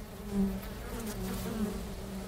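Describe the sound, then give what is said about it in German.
Honeybees buzzing at a hive entrance in spring as the colony wakes: a steady, dense hum that swells slightly and holds throughout, with no voices. “Für einen Imker vor einem Flugloch zu stehen, Bienen zu beobachten und das Summen im Frühling, das Erwachen des Bienenvolkes zu hören, ist einfach einzigartig.”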